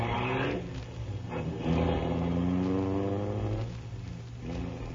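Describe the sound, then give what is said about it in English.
Alice's new car drives along in a radio drama, its engine a steady, low hum that swells and eases a few times, with no voices. “A few weeks ago, Alice bought a new car. She's been driving with a learner's permit, but today she's going down to take the test for her driver's license. She's a little nervous, so she's asked Phil and Frankie to drive down with her.”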